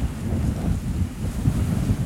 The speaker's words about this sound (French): le vent souffle fort. Ouais. On entend les pylônes. C'est un pylône électrique au-dessus de nous qui vibre à cause du vent. Des rafales à 80 km/h quand même.